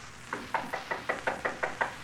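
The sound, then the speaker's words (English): Nine quick, evenly spaced raps sound on a door. The knocks are fairly faint and have a crisp, wooden character. “We are a trifle apprehensive as we knock at his door.”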